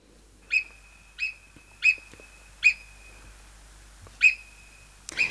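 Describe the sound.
An alpine marmot gives a series of sharp, piercing high whistles, each brief and clipped, spaced fairly evenly with one longer gap. A faint background hiss runs beneath the calls.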